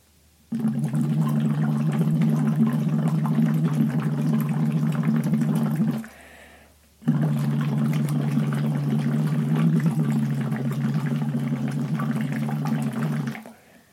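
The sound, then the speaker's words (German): A voice bubbles through a tube into a water bottle on a sustained "u" at a comfortable pitch, a voice-therapy exercise, heard as two long, steady, low bubbling hums separated by a short pause. “gleich werde ich den Schlauch zwischen meine Zähne in den Mund nehmen und dann in einer ganz angenehmen Tonhöhe erstmal auf U in die Flasche reinblubbern.”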